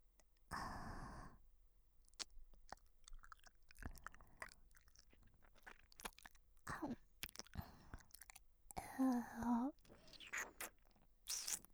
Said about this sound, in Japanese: 君のお耳を久しぶりに食べるね。やっぱり君のお耳とっても美味しい。